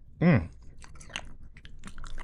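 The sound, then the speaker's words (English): A very crunchy cookie is bitten with one loud crunch, followed by fainter chewing and crunching. “You don't mind if I try one of these cookies, do you? Oh, they can't be that bad. That is crunchy.”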